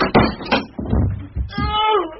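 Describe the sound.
A door bangs as someone falls in through it, giving a couple of heavy thumps and knocks, followed by a voice.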